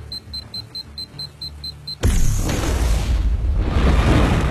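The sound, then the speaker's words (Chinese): A powerful bomb on a ten-second countdown in an abandoned port factory gives a rapid series of high electronic beeps, then bursts into a sudden loud blast followed by a sustained, rumbling roar. “炸弹强力引爆，瞬间血肉横飞”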